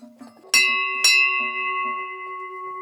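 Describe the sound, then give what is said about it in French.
Two loud strikes of a cow bell used for transhumance, each with a sharp metallic onset and a sustained ringing tone that fades slowly. A low voice talks briefly before the first strike. “Ça, c'est plutôt des cloches, bon, les met pour transhumer, mais qui pouvaient rester sur les vaches l'été.”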